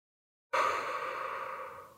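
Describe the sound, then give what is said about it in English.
One slow, deep, calming breath taken during a guided relaxation exercise. It is a soft, airy breath that starts suddenly after a moment of silence, holds steady and then tapers away at the end. “take a slow, calming, deep breath. Breathe in and breathe out.”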